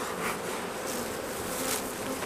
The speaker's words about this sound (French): Une ruche comme ça, ça représente combien d'abeilles? C'est difficile à apprécier. 50 000 abeilles à peu près.